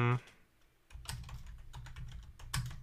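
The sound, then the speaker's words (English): Keystrokes clatter on a computer keyboard in a quick, irregular run of soft taps, faint overall, with a brief voice at the very start. “I'm gonna go ahead and type mine out.”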